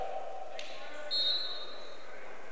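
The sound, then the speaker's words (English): A volleyball drops to the floor during a Jamestown match, making a single brief, soft impact beneath ongoing commentary. “Ball drops harmlessly to the floor.”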